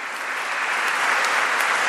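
Applause from a church audience: a dense, steady clapping from many hands that holds at an even loudness for the full two seconds, with no voices rising above it.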